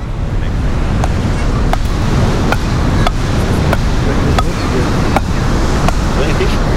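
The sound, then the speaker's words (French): Waves wash onto an Atlantic beach on the Médoc coast, north of the Gironde near the estuary, forming a steady, dense roar of surf and wind that holds an even loudness throughout. “Là, on est à la plage du Gurp.”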